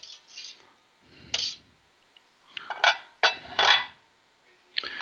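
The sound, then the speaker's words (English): Metal clanks and scrapes as a lid is lifted off a saucepan in a kitchen, coming as a series of bright, short clinks separated by brief pauses, with no talk. “Take the lid off our saucepan.”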